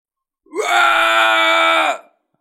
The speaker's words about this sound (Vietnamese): Hoàng Kim Dương hét lớn, mái tóc vàng đầy đầu trở nên khô cằn